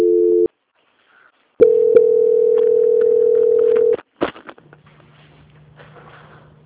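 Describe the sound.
Telephone line tones during a bank call transfer: a short steady tone, a pause, then a longer steady tone of about two seconds, followed by a few clicks and a faint low hum, with no talk.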